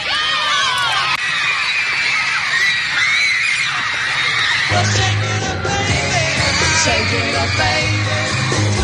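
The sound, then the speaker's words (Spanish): Fans scream loudly and without pause, a crowd producing a shrill, continuous wall of high-pitched yells and shrieks that stays intense for the whole stretch. “Si te pregunto sobre el fenómeno fan, puede que te venga a la cabeza artistas como los que acabas de escuchar, Elvis Presley, Michael Jackson o los Beatles. Pero este fenómeno y estos gritos de seguidores vienen desde mucho antes.”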